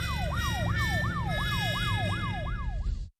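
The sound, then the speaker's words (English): A police car siren wails on a Washington, D.C. street in rapid, repeating rising-and-falling sweeps over a low engine rumble, loud and steady before cutting off abruptly. “What's that sound? That, Anna, is the police.”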